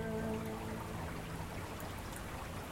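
Spring rain falls at a kibbutz on the first of May: a steady, dense hiss of patter at an even loudness throughout, with no distinct single drops.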